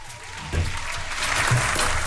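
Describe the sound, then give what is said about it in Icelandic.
Applause, a dense burst of clapping that rises after a brief quieter start and then holds steady to the end. “klöppum fyrir því”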